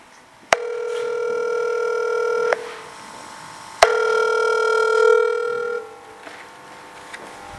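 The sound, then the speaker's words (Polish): A telephone rings out as a radio station calls a listener: two long, buzzing ring tones, each opened by a sharp click, separated by a short silence. “Za chwilę zadzwonimy do pierwszego słuchacza.”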